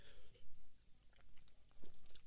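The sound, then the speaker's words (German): Monster Energy drink sipped from a can, heard as faint, close mouth sounds: a few soft slurps and gulps in an irregular rhythm, with a bright little clink near the end. “Ich nehme mal noch einen Schluck Monster.”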